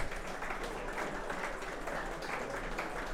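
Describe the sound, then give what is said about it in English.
Faint audience applause for a panel team after a quiz-style contest, a soft, even patter of many clapping hands that stays steady from start to finish without voices. “let's give them a round of applause for a valiant effort there”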